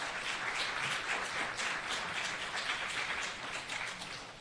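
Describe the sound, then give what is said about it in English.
Applause from a church audience welcoming two visiting guests: an even, dense patter of many hands clapping, fairly quiet and steady throughout, easing slightly at the end. “So Barbara and Beverly, where are you sitting out there? Let's see if we can, there you are, see, right over here. Let's give them a hand and welcome them.”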